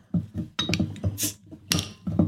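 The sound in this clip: A beer bottle from the Klett brewery is opened with a bottle opener that gets bent, giving a few metallic clinks against glass and one short, fizzy hiss of escaping gas.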